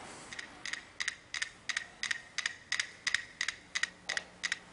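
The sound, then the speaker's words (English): Five metronomes tick out of phase, producing a rapid, faint stream of many crisp clicks that repeat at a steady pace with no voices. “before the story starts, these metronomes are going to click, but they're going to click out of phase.”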